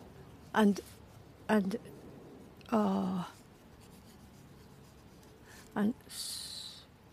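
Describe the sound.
A pen writes on paper in a few short scratchy strokes separated by pauses, with a lighter, hissier stroke at the end.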